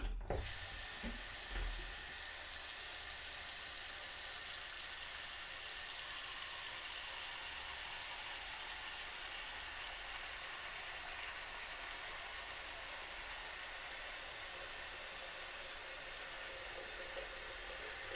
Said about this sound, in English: A sink, which I will fill up.